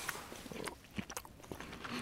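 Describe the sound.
Soft biting and chewing of a pressure-cooked matsutake mushroom, a few quiet crunchy chews in an irregular rhythm, faint and close with no talking.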